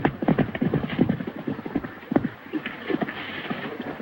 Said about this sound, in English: Wallace looks around and sees John riding into town. John stops his horse and ties him to a hitching post.